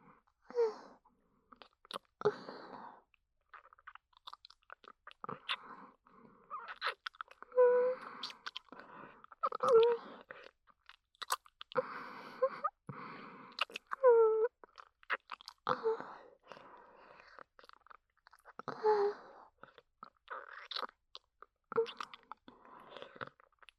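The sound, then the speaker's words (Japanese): Kissing, with many soft, wet lip smacks and squishy mouth sounds in an irregular, unhurried rhythm, fairly quiet, with occasional faint breathy voiced sounds between them. “好きですよ、あなたとのキス。”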